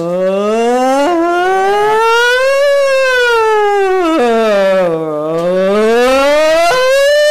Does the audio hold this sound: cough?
no